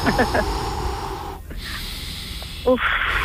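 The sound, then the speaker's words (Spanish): People take a deep breath together, a soft airy inhale lasting about a second, set between stretches of talk. “Vamos a respirar juntos, a ver, coge aire.”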